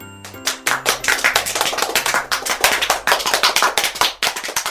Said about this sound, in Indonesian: Tepuk tangan untuk semua.